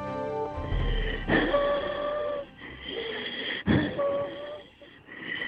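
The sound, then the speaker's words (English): Wheezing breaths come during an asthma attack, as a few long, strained inhalations and exhalations carrying thin whistling tones over a rough breathy hiss. “Anyone who's had an asthma attack or has been around someone suffering from an asthma attack knows that sound.”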